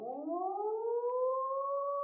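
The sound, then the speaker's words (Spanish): A warning siren sounds again, a wailing tone that rises steadily in pitch and then holds near its top. It is loud and clear on its own with no talk. “Al cabo de mucho rato, volvió a sonar la sirena.”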